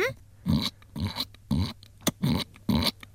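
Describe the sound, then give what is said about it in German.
A person imitates a piglet's oink with a series of short, nasal, grunting voiced bursts separated by brief pauses, one of them much briefer than the rest. “Kannst du einen Ferkel nachmachen?”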